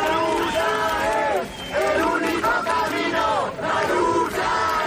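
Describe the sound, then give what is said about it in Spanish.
A crowd in Madrid's Puerta del Sol at night reacts to news of a death, massed voices chanting loudly in rhythmic phrases with brief dips between them. “Es el sonido anoche en Sol cuando la gente se enteraba de la muerte de Mari Carmen.”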